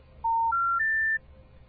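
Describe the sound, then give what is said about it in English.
A telephone special information tone, the kind played before telephone company recordings: three clean electronic beeps stepping upward in pitch, with the third held slightly longer, then silence. “That is a special information tone, and that particular special information tone is put at the beginning of telephone company recordings,”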